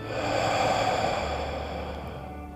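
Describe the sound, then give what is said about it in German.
A long, slow breath is let out through the mouth during a guided breathing exercise, a soft sustained airy exhale lasting about two and a half seconds and easing off gently at the end. “Und lass die Luft aus deinem Mund herausfallen.”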